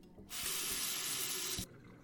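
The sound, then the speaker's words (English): Water runs from a tap and washes down a sink drain in one steady, fairly faint rushing stream of about a second and a half, which then cuts off cleanly. “Here, let's wash all that down the drain, maybe?”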